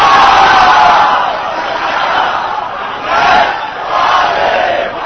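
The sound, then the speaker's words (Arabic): A crowd loudly chants salawat, blessings, in unison toward the shrine of Abbas at a religious gathering, the massed voices rising and falling in a few strong swells. “صوت عالي ان شاء الله بدون تصفيق حاضر عمي ان شاء الله بدون تصفيق فالصلوات توصل الى ضريح العباس باعلى صوتكم”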